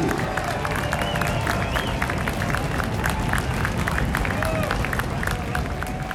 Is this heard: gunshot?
no